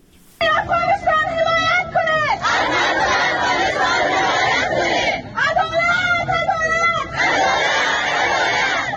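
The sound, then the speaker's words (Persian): Afghan women protest in Islamabad, Pakistan, a loud crowd chanting in unison. Stretches of rhythmic, tonal group chanting alternate with broader, noisier shouting from the crowd, steady and forceful throughout. “این صدای اعتراض زنان افغان است که پس از حاکمیت دوباره طالبان به پاکستان مهاجر شدند.”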